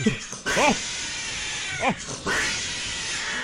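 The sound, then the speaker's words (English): Two cats yowling and fighting: a few drawn-out, wavering caterwauls that bend up and down in pitch, rising over a steady background hiss. “Yeah, we have two cats here in this video.”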